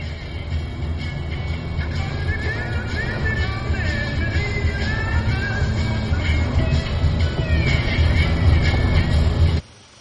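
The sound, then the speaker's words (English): Van driving along a road through woods: steady, fairly loud engine drone and low road rumble that holds level throughout and then cuts off abruptly. “A man drives a van on a road through the woods.”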